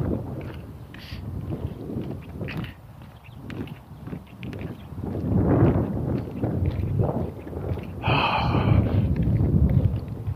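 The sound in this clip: Wind blows outdoors on a cold day, making a continuous rushing noise heavy in low rumble that swells and eases in gusts, growing stronger toward the end.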